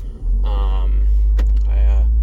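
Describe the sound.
Inside a car, a heavy low engine drone hums steadily beneath a voice speaking.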